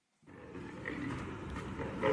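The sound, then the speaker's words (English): An angry female African lion roars in one sustained, low, growling burst. It starts abruptly and grows louder toward the end, with no other sound. “It's a female lion. It's a lion. It's a female African lion? Pretty big. So what that sound is a very pissed off,”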